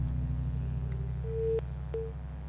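Busy tone on a telephone line after a dropped call: a few short, steady electronic tone pulses over a constant low hum.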